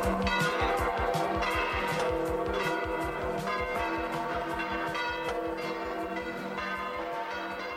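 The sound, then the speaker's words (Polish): Church bells ring in a full, continuous peal, with many overlapping metallic strikes following one another at a steady rhythm and sounding loud throughout. “Zabiły dzwony. Wszystko się zgadza, bo to niedziela się za chwilę rozpocznie.”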